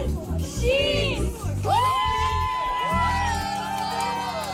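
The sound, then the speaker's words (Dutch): Wedding guests in an air-raid shelter in Ukraine cheer for the newlyweds: excited shouts and whoops from several voices rise over a murmuring crowd. “En natuurlijk onder luid applaus van de aanwezigen werd de liefde, ondanks die luchtaanvallen, gewoon gevierd.”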